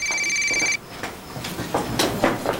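A mobile phone rings with a bright electronic tone that holds steadily for under a second and then cuts off, leaving faint scattered knocks and rustles.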